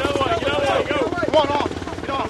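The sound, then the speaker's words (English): Rotor drone of military helicopters landing and lifting off at a field used as a food and water distribution site on a country club slope, running steadily under a talking voice. “As choppers land, the soldiers bucket brigade the water and food to the side of the field. The aircraft lifts off, and another one circles in to touch down.”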